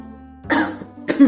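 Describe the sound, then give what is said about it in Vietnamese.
Two short, dry coughs, a man's feigned cough to cover embarrassment, sharp and fairly loud, separated by a brief pause. “Âu Thừa Duẩn hơi mất tự nhiên, giả vờ ho khan một tiếng, che đậy sự bối rối”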